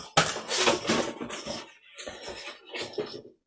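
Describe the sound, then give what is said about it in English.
Eggs cracked into a bowl one after another: a few sharp cracks and clattering knocks against the bowl, with a dense run of clatter at first and then separate clicks. “put that in the bowl. Then egg number 2. In we go.”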